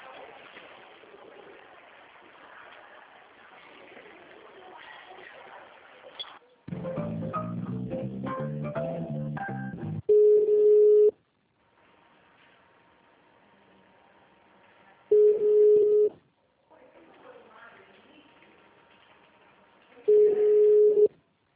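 Phone line tones sound while a call is transferred through a hospital switchboard: three steady, clear beeps spaced about five seconds apart, with quiet line hiss and murmur between them.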